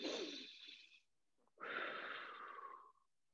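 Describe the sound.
A deep human breath: one long, airy inhale lasting about a second, a short pause, then a longer, slightly louder breathy exhale that tails off. No one talks.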